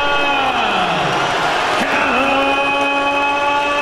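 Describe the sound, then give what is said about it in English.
A crowd cheers and applauds as the challenger from Barnsley, Yorkshire makes his ring walk before a boxing rematch. The roar is dense, loud and sustained, holding without a break throughout. “Well, listen to the reception for Callum Simpson.”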